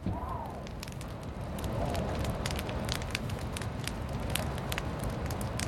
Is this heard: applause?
no